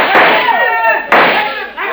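Rifle gunshots in a fight: two loud, sharp bangs about a second apart. Each hits with a sudden broad crack and trails off into a ringing tail.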